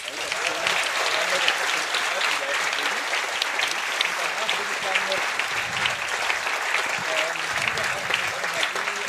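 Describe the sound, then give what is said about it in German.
Sustained audience applause at a hacker camp, thanking the volunteer clubs who built it; dense, even clapping from many people continues at a steady level throughout. “was so der CCCB und die anderen Clubs, Entropia, Cardus, Vollgas Crew hier so einfach mal in ihrer Freizeit aufbauen und da dürft ihr gerne einmal für ganz laut applaudieren.”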